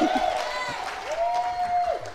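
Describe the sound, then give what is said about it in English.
Applause from an audience for a speaker, with steady clapping and a voice whooping in cheer partway through. “Everybody give SK a hand.”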